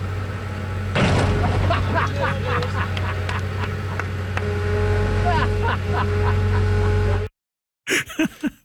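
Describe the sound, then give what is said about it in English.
Heavy machinery engine drone as an excavator crushes a car, with many crunching, scraping metal impacts over a steady low rumble. Brief voices follow at the end. “really the marquee experience is letting people crush a car with an excavator. And it sounds something like this.”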